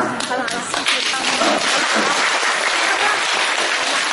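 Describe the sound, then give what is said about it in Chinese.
Thin, scattered applause from the audience at a Chinese crosstalk comedy show, a sparse patter of claps running continuously for about four seconds. “谢谢各位稀稀拉拉的掌声”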